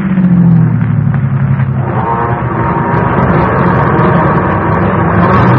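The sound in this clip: A car engine is shifted into second gear, a loud, continuous engine roar whose tone drops and changes character partway through, then continues as a steady, dense drone without any voices.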